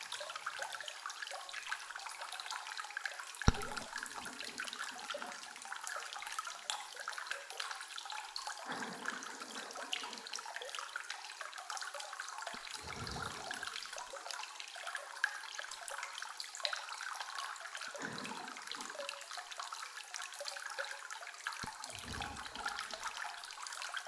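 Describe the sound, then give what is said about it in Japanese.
Flowing water at a hot spring bath, a continuous even hiss and rush of water that carries on steadily throughout. “こうしてまったり温泉で過ごしていると、身も心もとろけてしまいそうです。”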